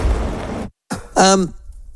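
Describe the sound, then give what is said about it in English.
A man still recovering from flu coughs: after a short breathy stretch and a pause, a sharp cough is followed by a loud voiced throat-clearing sound, then quiet. “sorry, I was just coughing, my apologies”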